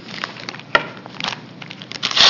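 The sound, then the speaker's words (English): A gauze packet torn open: a run of crinkly crackles and sharp snaps from the wrapper, building to a louder, sustained rip at the end. “And you tear open this gauze.”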